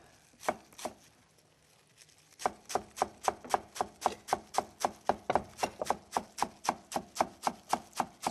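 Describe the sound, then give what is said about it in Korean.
Knife chopping Korean chives (buchu), halved and then cut finely: two separate strokes, a short pause, then a long run of many quick, even, crisp chops in a steady rhythm with no talk. “부추는 이런 조선 부추 같은 거 많이 쓰고요. 예. 호부추 쓰는 경우도 있긴 합니다. 겨울철에는. 네. 그래서 이거를 절반 가르고 그래서 자잘하게 썰어 주시면 되겠고요.”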